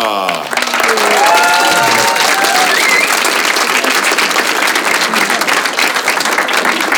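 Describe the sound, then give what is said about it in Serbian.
Loud applause and cheering from a comedy-club audience of around 150 as a comedian walks on stage, dense clapping building quickly and holding steady, with whoops and high cheers early on. “Jedan veliki aplauz za Aleks Cura Čarića!”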